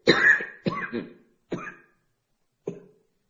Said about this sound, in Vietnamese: Bây giờ nó có tuổi rồi, nó ho.